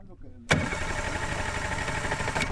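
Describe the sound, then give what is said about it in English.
A small metal motorboat's engine abruptly roars to life in a reedy wetland in Sonora, Mexico, then holds a steady, loud mechanical drone; faint low murmuring comes just before the engine catches. “Juan Butron Mendez navigates a small metal motorboat through a maze of tall reeds at the Cienega de Santa Clara in the Mexican state of Sonora”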